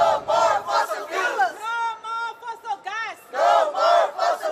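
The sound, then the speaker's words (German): Chanting from climate activists at a protest, many voices calling out in rhythmic sung phrases with short pauses between them. “Sprechchöre mit Trommeln.”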